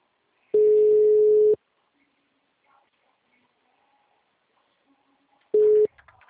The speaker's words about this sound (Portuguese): Sua chamada está sendo encaminhada para a caixa de mensagens e estará Tchau. sujeita à cobrança. O número está ocupado.